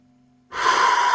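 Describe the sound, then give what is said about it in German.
A deep inhale during a guided breathing exercise: after about half a second of near quiet, a loud, steady, breathy rush of air begins and carries on to the end, with no talk over it. “Atme ganz tief 2 bis 3 Mal ein.”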